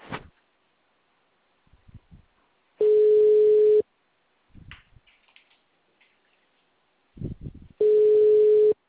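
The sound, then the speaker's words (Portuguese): A telephone ringback tone sounds while a call is being placed: two steady, single-pitch tones about a second long, separated by a long gap with faint clicks and rustles. “Tá ligando aqui. Tô falando, mas tô ligando.”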